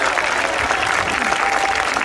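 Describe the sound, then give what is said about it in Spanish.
A church audience claps in praise to God during a sermon, producing a continuous, dense patter of many hands at an even, fairly loud level with no pause. “Le da palmas a Dios, hermanito amado.”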